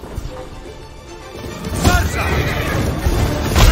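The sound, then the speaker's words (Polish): A horse neighs during a mounted cavalry charge in a video game, a short whinny rising out of dense, rumbling battle noise that grows louder toward the end. “Przytrzymaj L1, aby aktywować szarżę konną i powalać grupy wrogów.”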